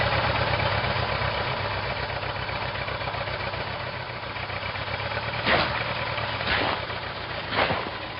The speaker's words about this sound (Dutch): Wat een vreemd voertuig. Het heeft in het geheel geen achterwielen. In plaats daarvan zijn er een paar reusachtige metalen schoenen opgemonteerd, die op een trommel ronddraaiden.